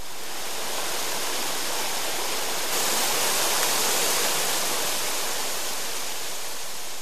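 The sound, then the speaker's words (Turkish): Rushing water of the Büyük Men River flowing past a village with water mills in Düzce, a dense, steady roar that brightens slightly partway through, with no voices. “Hemen yanından geçen Büyük Men Nehri bu cennetin en güzel hazinesi.”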